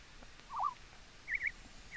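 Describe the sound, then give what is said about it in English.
A bird call from the video game RuneScape: a few short, faint warbling chirps at a high pitch over a quiet background hiss, with no voices. “See, they updated the bird sounds. Well, I thought that was a real bird. They updated the bird sounds yesterday. I noticed that. You just made me listen to a bird on RuneScape.”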